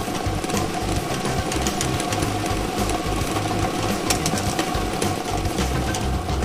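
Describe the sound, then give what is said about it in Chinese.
A lottery ball drawing machine runs with a continuous mechanical whirring and rattling rumble, dense and steady at constant loudness with no pauses. “摇奖机正式启动了，祝大家好运。”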